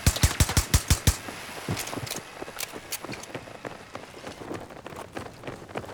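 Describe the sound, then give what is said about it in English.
An M60 machine gun fires in a video game. A rapid burst of about eight heavy shots is followed by scattered, fainter pops and impacts. “M60 might be good, my new go-to now. It's really good. I'm surprised. I didn't think it would be this good.”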